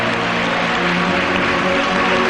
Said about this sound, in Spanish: Dele un aplauso a mi Rey.